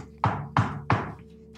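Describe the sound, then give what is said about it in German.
Three firm knocks on a front door reinforced with bronze bands, evenly spaced and loud against a quiet background, with no voices. “und klopfe an der Tür.”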